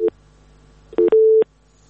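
Telephone line tones after a dropped call: three short electronic beeps at a steady pitch. The last beep is the longest, with quiet line hiss between them and no talk.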